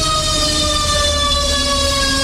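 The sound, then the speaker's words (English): A fire truck siren wails loud and continuous with a steady high tone, and a low engine rumble sits underneath. “Oh, it's a fire truck.”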